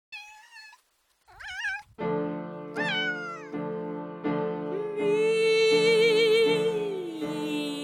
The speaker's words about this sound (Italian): pensata per essere eseguita da due gatte soprano accompagnate da un pianoforte. Pertanto, chi si approccia a questo pezzo deve miagolare secondo una determinata partitura.